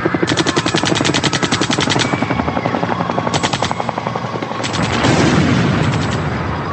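Rapid automatic gunfire as police open fire at dawn on indigenous protesters blockading a highway near Bagua Grande: loud repeated bursts of fast cracks with short gaps, then a denser, roaring blast of noise toward the end.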